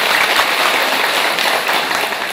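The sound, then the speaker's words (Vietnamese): Applause from an audience at a Buddhist nun's dharma talk on taking refuge in the Three Jewels: dense, steady clapping fills the whole stretch at an even, loud level with no voices. “Cho một tràng pháo tay.”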